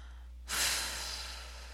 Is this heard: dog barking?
no